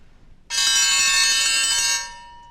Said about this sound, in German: Die Königin hat geläutet.